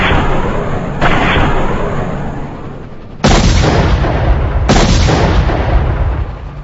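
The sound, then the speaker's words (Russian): Air-to-ground missile strikes hit a warehouse in a run of four heavy explosions, each booming in suddenly and trailing off into a loud, sustained rumbling roar. “Я не успел опомниться, как ракетный удар повторился, но на этот раз по фасаду склада. Рвануло так, что на нас сверху водопадом посыпались осколки стекла и бетонная крошка.”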